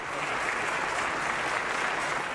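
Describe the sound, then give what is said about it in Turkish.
Applause rings through the Turkish parliament, a dense, even patter of many hands clapping at a steady level from start to end, with no pauses and no voices. “Bahçeli Özel'i alkışladı.”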